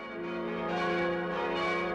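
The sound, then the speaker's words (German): Church bells ring from the massive tower of the church in St. Engelmar in the Bavarian Forest. The five bells were cast after the Second World War by a foundry in Bremen-Hemelingen. Their dense, resonant tones blend into one steady, sustained ringing that swells slightly. “Das sind die Glocken von der Kirche in St. Engelmar. Klangvoll und kräftig tönen sie vom wuchtigen Turm über die Täler und Höhen des vorderen Bayerischen Waldes.”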